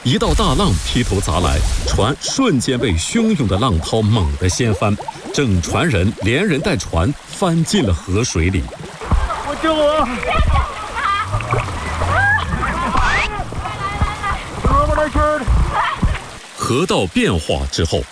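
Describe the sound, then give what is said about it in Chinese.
Rushing, splashing river rapids as a big wave crashes over a rafting boat on a narrow natural river with submerged rocks, a continuous loud churn of water with bursts of splatter, with people talking over it. “一道大浪劈头砸来，船瞬间被汹涌的浪涛猛地掀翻，整船人连人带船翻进了河水里。”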